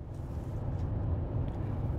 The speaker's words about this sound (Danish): Jeg sidder lige nu i bilen på vej fra DR-byen mod Kirke Hyllinge